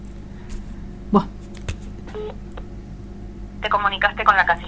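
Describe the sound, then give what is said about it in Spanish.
A telephone rings unanswered: a brief electronic tone burst sounds over low hum and scattered clicks, and a voice talks near the end. “Dale, Sandra. No contesta. Está agendada, ¿eh? No contesta.”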